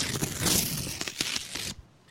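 Paper crinkles and tears as an envelope is opened. A few rough, crackling bursts of rustling give way to quiet at the end.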